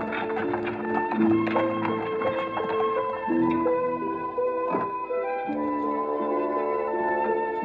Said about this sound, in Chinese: 马车终于停下了，我被抱下了车。